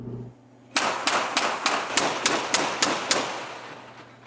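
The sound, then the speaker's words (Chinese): Gunfire from a US and Cambodian naval live-fire drill aimed at a target in the Gulf of Thailand: nine sharp, loud shots in a rapid, evenly spaced burst, with a low hum before the first shot. “在泰国湾，美国和柬埔寨的海军军官准备向绰号杀手番茄的标靶射击。”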